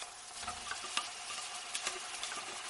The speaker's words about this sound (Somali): Wax macaan baa shiilmaya. Shaqartii digsiga maqlaynaa.